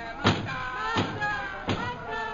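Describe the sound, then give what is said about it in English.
Pounding on a door: three heavy, evenly spaced thuds over a faint, sustained tonal background. “Stop that pounding and go away.”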